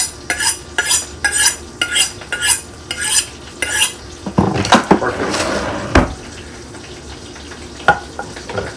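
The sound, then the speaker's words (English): A chef's knife being sharpened in a home kitchen, heard as a rapid run of evenly spaced metallic scraping strokes, followed by louder clattering and scraping of kitchen utensils. “Alright. I have my trusty chef's knife. Let me go ahead sharpen it up real quick.”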